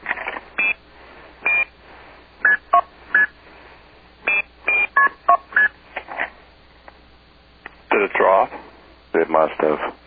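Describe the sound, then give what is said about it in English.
Telephone DTMF dialing tones are sent as a dialing command over a narrow phone-line channel. Many short, clipped tone bursts come in uneven groups, then a voice talks near the end. “I can hear your seize tone crystal clear, but your dialing command isn't slipping through the way it's supposed to be. Are those the purest tones you can find anywhere?”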